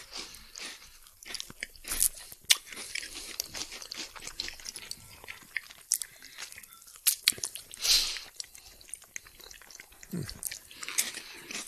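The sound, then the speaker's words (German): Crunchy biting and chewing of homemade chestnut bread, many irregular crisp crunches and moist mouth sounds in an uneven rhythm, close and clear with no talking. “Und ich sag mal dann guten Appetit. Bei mir gibt's übrigens das selbstgebackene Kastanienbrot dazu.”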